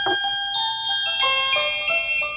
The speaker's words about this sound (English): Do you want to give us your sleigh bells? Oh, yeah, I was about to reach for the sleigh bells.